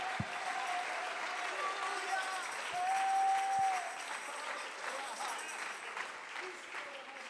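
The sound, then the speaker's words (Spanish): A church audience claps hands in praise during a bilingual English and Spanish service. The applause is steady and dense, with voices rising over it. “Come on, let's stop and give God some praise. Vamos a parar y darle palmas al Señor.”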